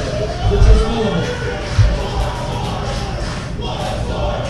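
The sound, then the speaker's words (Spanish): A crowd at a combat-sports event in the White Eagle Hall chants "Bloodsport" as a loud, rough roar of many voices, with a couple of heavy low thumps early on. “Y el público coreando Bloodsport aquí en el White Eagle Hall.”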